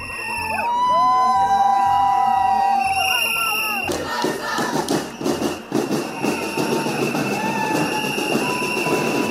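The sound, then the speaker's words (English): Crowd marching in the first Pride parade in Sarajevo: high, sustained tones ring over a loud crowd for the first few seconds, then a dense, churning din of many voices and shouts continues at a steady level. “That's the sound of the very first LGBTQ Pride Parade in Sarajevo.”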